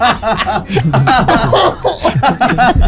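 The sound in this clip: Loud coughing mixed with chuckling laughter, a quick run of rough, breathy bursts following one another without pause.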